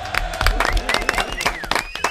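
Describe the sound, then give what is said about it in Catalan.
Audience applause after a correct answer in a quiz game: dense, irregular clapping mixed with crowd voices and some cheering, steady in loudness throughout. “Molt bé, un aplaudiment.”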